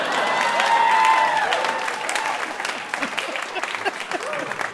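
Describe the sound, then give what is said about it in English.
An audience at a trivia game cheers and applauds a correct answer. A burst of voiced cheering comes early, then steady clapping carries on at a slightly lower level, with talk coming in toward the end. “People cheered for that. Yeah. People cheered for World War One.”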